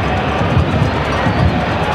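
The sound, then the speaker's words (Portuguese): Stadium crowd applauding a midfielder during a football match, a dense, continuous wash of clapping and crowd noise that stays at an even, loud level throughout. “E aí todo mundo aplaudindo agora o meio-campista Rodrigo Garro, que fez uma excelente partida hoje.”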